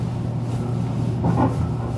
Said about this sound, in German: Der Reporter fährt wieder nach Kreiling mit der S-Bahn zu Helmut Seibert.